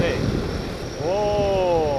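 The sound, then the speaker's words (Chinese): A heavy-lift eight-axis, sixteen-propeller drone takes off like a helicopter while hauling a 200 kg load. A steady rotor roar carries a whining tone that climbs in pitch at about one second and then holds. “那他升空的状态是什么样呢？能给我们展示一下吗？ 可以。 这像直升机起降一样。”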